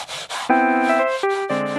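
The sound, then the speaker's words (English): Rasping scraping strokes against a boat hull: two short rubbing strokes, then the abrasive scraping continues under sustained musical tones. “Now, we'd better get back to scraping or we'll never get her in the water.”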